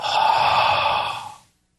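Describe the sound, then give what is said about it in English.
A single long exhaled breath, a steady breathy hiss that holds for about a second and then tapers off into silence. “See that breath? That exhale right there? That's carbon dioxide.”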